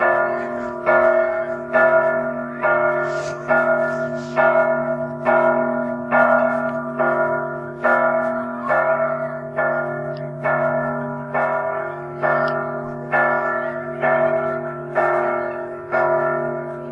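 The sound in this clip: A bell rings in steady, evenly spaced strokes, many loud tolls repeating roughly once a second over a sustained low hum, with no voices.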